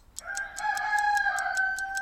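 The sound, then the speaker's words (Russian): A rooster gives a single loud, drawn-out crow at four in the morning. The crow starts abruptly and holds a strong, ringing tone for nearly two seconds, with no voices. “4 часа утра. Курица кричает.”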